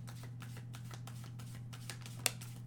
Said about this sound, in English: Hold on. Let's get a moon card. This is a good time for a moon card.